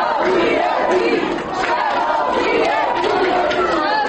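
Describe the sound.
Several dozen students shouting together in a university building outside the rector's office, a loud, dense, continuous roar of crowd voices with no pause.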